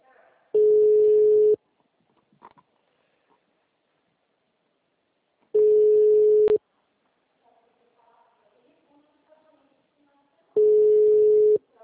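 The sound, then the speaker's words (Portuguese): An outgoing telephone call rings through to voicemail. Three steady, mid-pitched ringback tones sound, each about a second long and spaced about five seconds apart, with faint background noise in the gaps. “tô ligando a caixinha, tá?”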